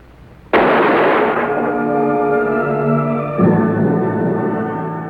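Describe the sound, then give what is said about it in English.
A single sharp gunshot in a radio drama cracks out suddenly and gives way to sustained, ringing dramatic music that swells again partway through. “So he shot her.”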